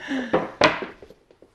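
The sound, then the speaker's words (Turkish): A metal cooking pot is picked up in a home kitchen, giving one sharp clank followed by a few softer knocks and rattles that fade away. “Bir saniye. Hemen tenceremi de aldım.”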